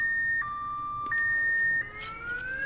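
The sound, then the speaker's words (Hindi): A car alarm going off, loud steady electronic tones that switch back and forth between two pitches, then turn into a rising sweep, sounding alone without talk. “जाओ इस alarm को बंद करो जल्दी।”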